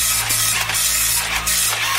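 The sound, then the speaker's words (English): An office printer prints a page with continuous mechanical whirring and grinding, steady in level, with a faint rhythmic rasp running through it. “Right, printing it off now. Here we go.”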